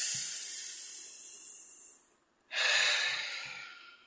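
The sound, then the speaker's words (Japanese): A deep breath taken before reading out a radio call sign: a long airy rush of breath, a brief silent pause, then a second, louder breathy rush that slowly fades, with no talk over it. “深呼吸ぐらい一回しますか。”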